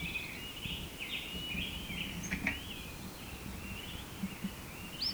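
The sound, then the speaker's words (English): A bird gives faint, thin position call notes, a series of high chirps drifting in pitch over steady background hiss, with no talk. “Bird had been giving song syllables at 5 to 5. Now he's only giving position notes.”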